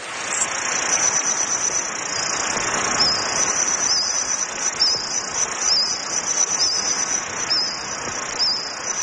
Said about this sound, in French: C'est le son de certains insectes du Jurassique.